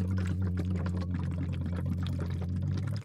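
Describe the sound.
Air bubbling through a hose held in water during a voice exercise, a dense continuous gurgling over a steady low hum that cuts off abruptly at the end.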